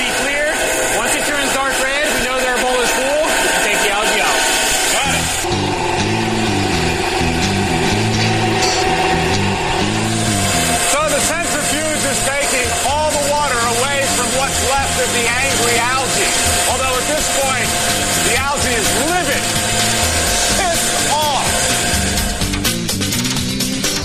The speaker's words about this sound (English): The product will come out of the tank, run right into the spinning bowl. The excess water is pushed out of the back of the machine, and our cake will form in here, and that's the product that we want. Let's do it.